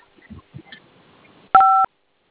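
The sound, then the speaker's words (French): A phone keypad gives a single short, steady dialing beep while a caller keys in a star code on a mobile network line. The beep follows a few faint soft knocks. “Dites-la de composer étoile 510, ok?”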